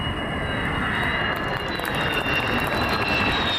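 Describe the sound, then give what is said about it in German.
Jet roar from a Turkish KAAN stealth fighter with a US-built engine on its maiden flight at a military airfield: a loud, steady, broad rush with thin high whining tones drifting slightly, continuous throughout. “Jungfernflug des Tankkappenjägers Khan, made in Türkei.”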